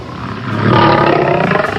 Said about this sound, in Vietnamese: Thì đột nhiên, có một con sư tử tấn công họ. Đó chính là con sư tử dạng đỏ.